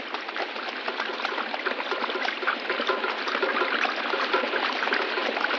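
A stream flows at the eastern boundary of a farm, giving a steady, even rush of trickling water that stays constant throughout, with no voices.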